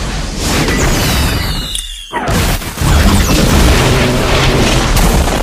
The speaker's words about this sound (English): Since I'm the god of this universe, missile strike.